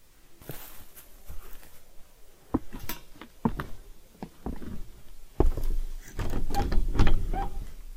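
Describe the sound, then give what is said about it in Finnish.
A locked door being tried in an old house in a deserted village: a series of sharp clicks and clunks from the handle and latch, then louder rattling and rumbling as the door is pushed but stays shut. “Ovi on lukossa. Ei pääse sisälle.”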